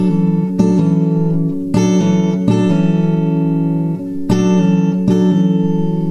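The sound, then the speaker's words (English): A guitar part played with the pinky holding G at the third fret of the high E string. Plucked notes ring out in a steady, repeating pattern, with sustained tones between the picks and no talking. “Part you can also do by hanging on to the G note on the high E string, the third, with your pinky on the third fret. And that would sound like this when you pick the pinky too.”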